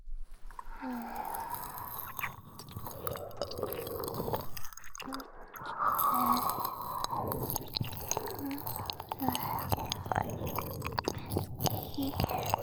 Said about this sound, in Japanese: 私も耳なめ再開。